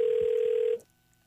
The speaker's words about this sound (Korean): 저희가 무작위로 58번 주신 분 가운데 전화를 드려봅니다. 자, 전화를 받아주셔야 되는데.